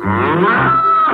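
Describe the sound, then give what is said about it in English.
A cow gives one loud, low moo that lasts about a second and shifts in tone midway before it stops, with no talk over it. “C's for cow. There's a cow in my alphabets.”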